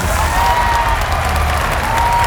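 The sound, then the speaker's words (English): Steady audience applause at an evening gathering: a dense, continuous patter of many hands clapping that holds at an even, loud level from start to finish. “And please, give a round of applause to my campaign manager, Snakebite Sue.”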